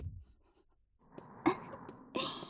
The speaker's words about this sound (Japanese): ちゃんと読めるように書くのよ。見た人が一発でわかるようにね。